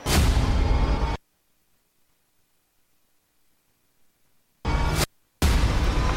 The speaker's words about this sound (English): Just destroy my tank. She de- destroyed a piece of me.